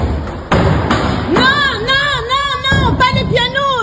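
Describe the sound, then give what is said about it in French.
Protesters kicking and smashing a piano in a school hall: a few loud, heavy thuds land in the first half, then raised shouting voices carry over further impacts. “des manifestants entrent dans l'établissement et détruisent à coups de pied le piano installé dans le hall.”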